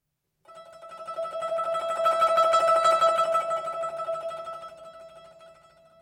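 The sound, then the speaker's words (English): Zheng tremolo (rolled) technique sustaining a melody note: a rapid, shimmering tremolo holds one steady bright pitch, swelling in loudness, then slowly easing off. No voices. “Here's what the tremolo sounds like on its own.”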